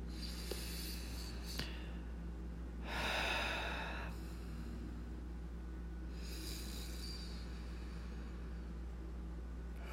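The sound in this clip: A deep breath drawn in, heard as a soft, airy inhale that swells and fades over about a second against a quiet steady hum, with a fainter breathy sound following a few seconds later.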